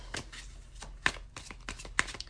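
A deck of Radiant Wise Spirit Tarot cards is shuffled in a few quick, irregular bursts of papery riffling and soft slaps, with sharper snaps standing out.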